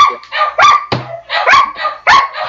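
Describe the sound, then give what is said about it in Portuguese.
A dog barks in many quick, shrill yelps, one after another. The barks are loud and high-pitched, with brief gaps between them and no voices. “Para de gritar, cachorro! Se vai latir, late direito, porra! Vocês estão escutando o cachorro gritando daí?”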